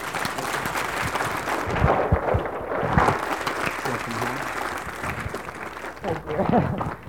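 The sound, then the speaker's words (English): A church audience applauds to welcome new members home, with dense, continuous clapping that holds steady throughout. “So let's give God a hand and welcome them home.”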